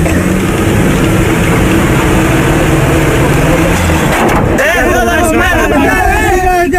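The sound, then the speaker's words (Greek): A car engine revs as the driver releases the clutch and accelerates: a constant low rumble runs throughout with voices talking over it, and the engine's tone changes after the midpoint. “Έλα καλά στο γρατ, βάλε ταχύτητα. Μάλιστα. Άφηνε σιγά σιγά το τεμπραγιάς και πάτα γκάζι.”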